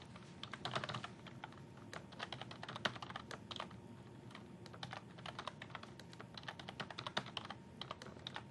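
Rapid typing on a computer keyboard as admin credentials are entered, with many crisp key clicks in an uneven, steady stream and no voices.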